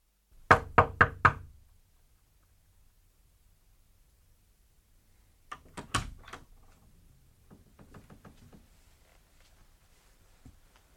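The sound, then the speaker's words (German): Knocking on a door: a quick group of four sharp raps, then a pause and a second round of knocks trailing off into fainter taps. “Ich habe geklopft, Sie haben offenbar nichts gehört.”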